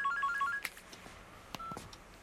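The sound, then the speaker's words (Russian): A mobile phone rings with a faint run of short electronic beeps, followed by a few soft clicks and knocks. “Ему звонит мобильный.”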